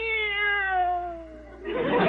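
A cat's single long meow, a female pet that has been listless, drawn out and clear with a pitch that slowly falls, then a short burst of rough noise at the very end.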